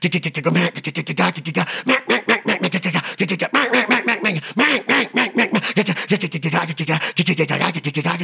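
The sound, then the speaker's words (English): Mallard duck quacks imitated with the hands, many rapid nasal quacks in quick bursts and short runs, loud and steady throughout, with no talking. “Those are my lonesome hands. My quacks. I'm trying to have a conversation. Emulate a mallard duck.”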